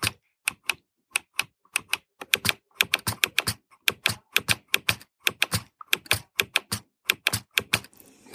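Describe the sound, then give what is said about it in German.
Clicking from the modules of a sturdily built 40-cell Papenmeier braille display, many sharp, loud taps in an irregular rhythm, like fast typing, with no voices. “Also so klingt die Zeile, die 40er von Papenmeier. Sie ist sehr robust gebaut, aber die Module sind sehr laut”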